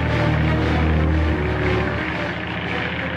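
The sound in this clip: Propeller aircraft coming in to land, its engines a loud, continuous, rough drone that holds steady throughout with no voices.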